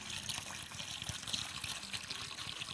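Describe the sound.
Water pours steadily into a bowl as part of a sermon demonstration, making a soft, continuous splashing and trickling that stays fairly even throughout.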